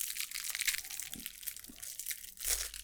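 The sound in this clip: Crinkling and crunching of plastic wrap as a food item with a label stuck to its wrapper is unwrapped, a continuous rustle with a few louder crackling bursts.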